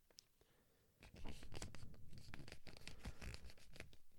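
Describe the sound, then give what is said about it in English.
A generic 8.5 by 11 sheet of paper is folded, giving a crisp, scratchy crinkling. Faint rustles swell after about a second into dense rough bursts that continue quietly to the end, with no talk. “I just folded it again.”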